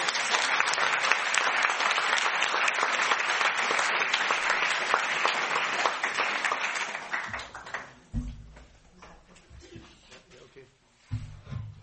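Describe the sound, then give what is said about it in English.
Audience applause for the performers of a stage play: dense, loud clapping sustained for about seven seconds, then thinning out into scattered claps and softer, low rustling sounds. “ils ont fait un travail formidable, nous pouvons encore les applaudir.”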